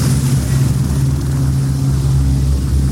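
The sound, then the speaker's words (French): Loud helicopter engine drone, a steady low hum with a faint pulsing ripple that holds constant throughout, with no voices. “Mais qu'est-ce qui se passe? C'est un hélicoptère. C'est un hélicoptère.”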